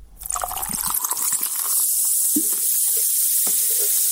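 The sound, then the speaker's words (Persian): A carbonated soft drink fizzing, with a splashing pour at first that gives way to a steady bright hiss of bubbles and scattered small pops. “این صدای آشنا که بعید است بعد از شنیدنش در یک روز گرم تابستان هوس نوشابه نکنید، برای تبلیغات نوشابه‌های مختلف استفاده می‌شود.”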